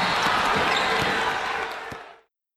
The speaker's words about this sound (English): They're playing basketball. He shoots. He scores.